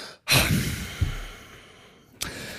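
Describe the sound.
A voice imitates a loud, abrupt exhale: a sharp, breathy rush of air that slowly fades, then a small puff and another sudden breath near the end, with no words.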